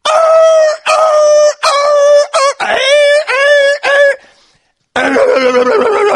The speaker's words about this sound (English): that's the dog that's been stepped on.